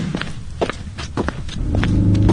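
Footsteps walking, a series of light, evenly spaced steps tapping along, joined in the second half by a steady low droning tone underneath.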